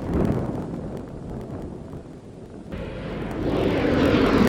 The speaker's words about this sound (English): Space Shuttle Discovery now on final approach to the Kennedy Space Center.